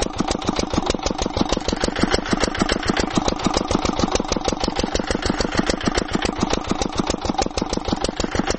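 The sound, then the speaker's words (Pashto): Engine of a well-drilling rig running in a house yard, a loud, steady chugging made of rapid, even pulses that continue without a break, with no voices. “دی وسه د هغه کور په انګړ کې برمه وهي”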